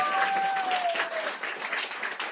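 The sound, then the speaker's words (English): Audience applause for a reader at a reading event: a dense, steady wash of clapping that holds fairly even for about two seconds. “That is Ravi, ladies and gentlemen. Give her a hand.”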